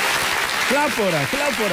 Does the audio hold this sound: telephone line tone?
no